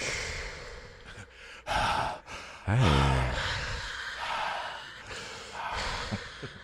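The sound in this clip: A voice imitates a stain kit gift bag breathing as it is opened, with a series of breathy gasps, sighs and snorting puffs of air. Several bursts rise and fall, and one drawn-out exhale has a wavering pitch.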